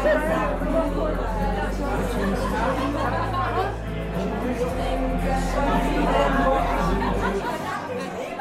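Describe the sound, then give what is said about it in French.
Party guests chatting at a home gathering for the anniversary of the fall of the Berlin Wall: dense, overlapping crowd babble that stays steady throughout, with a low hum underneath. “Et ce que vous entendez, c'est la bande-son de cette soirée chute du mur.”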